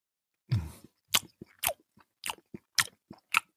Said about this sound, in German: Es ist Vanillekipferl. Hm. Oh. Oh, mach's auf, let's go. Mach's auf jetzt. Mm. Oh, es ist schön saftig.